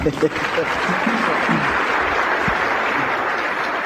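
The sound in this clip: An audience applauds as a speaker is welcomed to the platform, a loud, dense, continuous patter of clapping that stays even throughout.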